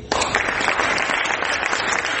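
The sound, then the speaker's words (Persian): Steady audience applause at a film festival awards event, a dense, even wash of clapping that holds throughout with no talking. “ازتون میخوام تشویقش کنم”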